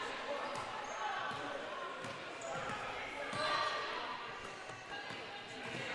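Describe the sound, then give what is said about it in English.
A basketball is dribbled on a gym court during a girls' basketball game between Notasulga and Wadley. Steady repeated bounces thud beneath continuous play-by-play talk. “Brown tries to dribble baseline, has it stripped by Jarrido.”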